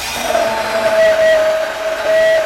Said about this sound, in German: Jetzt kommt nur der Bärlauch rein. Dann nehmen wir uns fürs Mixen jetzt aber mal ein bisschen größeres Gefäß, sonst gibt es hier gleich eine Sauerei.